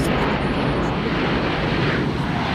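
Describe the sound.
Continuous, loud roar of airplane engines aboard a passenger flight to Zagreb, a dense, even rumble that holds steady without pauses or voices.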